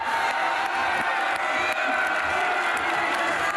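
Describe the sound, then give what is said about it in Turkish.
A football crowd at Mogadishu Stadium during a local league match cheers and shouts in a continuous loud roar, with scattered whoops and some clapping in the mix. “Tribündeki Somalililer hakem Artan'a yoğun ilgi gösterdi. Tezahüratlar yaptı.”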